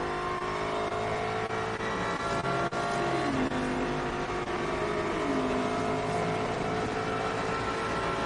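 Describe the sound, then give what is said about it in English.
Loud, unbroken roar of endurance racing cars on track during a world championship endurance race. The engine tone dips and recovers a couple of times over a dense, steady drone, with no talk. “in the number 35 Alpine, doing that car's fastest lap of the race. Isn't it good to have endurance racing, world championship endurance racing, back on track?”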